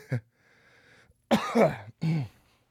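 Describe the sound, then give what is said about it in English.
Throat clearing by a man, heard as a few rough, throaty bursts. A short burst comes first, then a longer, stronger one and a final push after a brief gap. “Oh man, I got to clear my throat for a second.”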